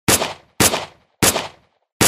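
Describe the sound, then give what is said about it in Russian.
Four gunshots ring out as sharp, loud cracks, each with a short fading tail, fired at a steady, evenly spaced pace. “Выстрел. Нападавший дернулся. Еще выстрел.”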